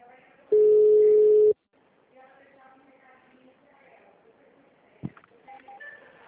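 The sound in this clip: Telephone tone while a call is being transferred: a single loud, steady electronic beep lasting about a second, then a quiet, hissy open line with faint murmuring and a sharp click near the end.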